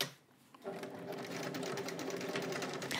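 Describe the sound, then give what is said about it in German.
A sewing machine runs a straight stitch while a bag is sewn. After a quiet half second, a steady, rapid mechanical whirr and needle chatter starts and continues evenly to the end. “Und ich nähe das jetzt erst einmal, wie gesagt, mit dem Gradstich fest.”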